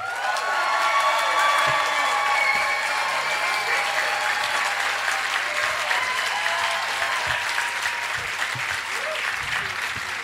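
Audience applauding and cheering to vote for the affirmative team at a live science comedy debate, a strong, steady burst of clapping with whoops that tapers gently over about ten seconds.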